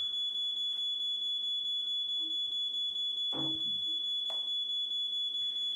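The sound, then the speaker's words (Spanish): An electronic alarm signalling that a patient has escaped: a steady, piercing high-pitched tone sounding without a break, with a couple of brief dull knocks beneath it. “Es la alarma de que los pacientes... de que alguno de ellos ha escapado.”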